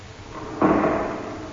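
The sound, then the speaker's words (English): An old wooden front door falling in, heard as a single heavy, muffled thud followed by a short rumbling decay, standing alone without voices. “I stumbled on a broken step, then knocked rather inanely on the front door. And the door fell in.”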